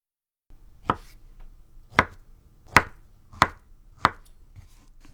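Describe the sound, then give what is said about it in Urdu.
A knife chops peeled halved pieces, cut lengthwise and then across into 1 cm cubes. Five sharp, separate chops land at uneven intervals with a brief ring after each, with no voices. “ان 1/2 ٹکڑوں کو لمبائی میں کاٹ کر ہر ٹکڑے کے are پار چھری چلاتے ہوئے 1 سینٹی میٹر کے چھوٹے ٹکڑے کاٹ لیجیے۔”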